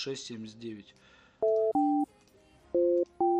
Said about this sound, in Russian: Набираю.